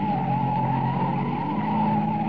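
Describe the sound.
A car screeches around a corner at speed, a loud, continuous tire squeal with a wavering high pitch over a steady engine roar, sustained for over two seconds with no speech.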